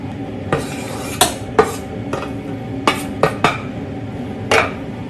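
Metal utensils knock and clink against a pot as okra goes into a simmering Thai yellow curry. Several sharp, bright clanks fall at uneven intervals over a low background, with no voices.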